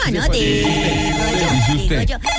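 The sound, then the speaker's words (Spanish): A telephone rings at a building's porter's desk, a steady ringing that continues for the whole stretch beneath people talking. “Espérame, mi paniagua, ¿qué están llamando? Un segundito, por favor. Aló, sí, muy buenas tardes, portería.”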